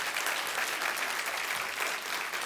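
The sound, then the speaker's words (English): Applause from a church audience welcoming a pastor as he comes up: steady, dense clapping that continues evenly throughout. “Come on up here, Pastor. Let's give him a big hand and a warm welcome.”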